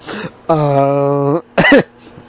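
Someone clears their throat with a long, voiced, raspy rasp, then gives a short, sharp cough. The sounds come alone, with no talk around them.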